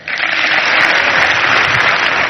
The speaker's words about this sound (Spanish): Aplausos sin lugar a dudas merecidos para Óscar de Marcos, para el gran capitán